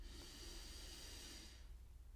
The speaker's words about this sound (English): I'm going to take a second here at the end actually and just take a big deep breath with me and let's become present again.